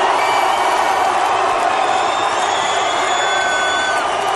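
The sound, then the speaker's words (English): A wrestling crowd at No Way Out in Montreal boos The Rock in a loud, unbroken roar of massed voices, with whoops and shouts rising through the steady din. “Rock was certainly not welcome to friendly at No Way Out in Montreal. Yeah, and he didn't like getting booed either.”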